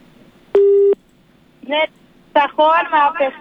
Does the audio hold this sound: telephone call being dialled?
yes